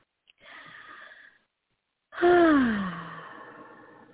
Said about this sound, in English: We can take another beautiful deep breath, inhale and exhale.